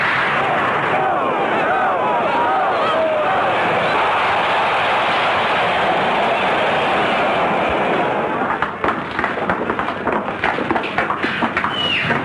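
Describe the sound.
Gunfire at a shooting contest: a dense, steady roar of rapid shots fills most of the stretch, then gives way near the end to many sharper, separate cracks.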